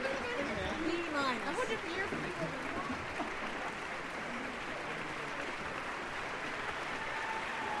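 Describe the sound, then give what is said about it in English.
Warm audience applause welcomes the Orpheus Chamber Orchestra as it takes the stage at Carnegie Hall. Dense, steady clapping fills the whole stretch at an even loudness. “A very warm welcome, as you can hear, for Orpheus Chamber Orchestra as they take the stage here at Carnegie Hall.”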